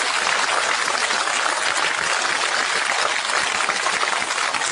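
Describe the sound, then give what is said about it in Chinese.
Audience applause at a stage show, dense and steady, staying loud and continuous for the whole stretch with no voices. “亲爱的观众，为无名英雄鼓掌吧。”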